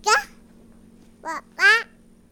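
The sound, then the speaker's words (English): Toddler boy babbling in three short, high-pitched vocal bursts separated by pauses, over a faint steady hum. “This toddler was one of the unplanned home births that happened in the aftermath of Hurricane Maria.”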